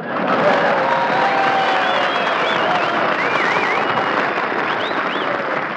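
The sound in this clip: An enthusiastic audience applauds and cheers in a loud, continuous roar of clapping and crowd noise, with a few shrill whistles rising above it.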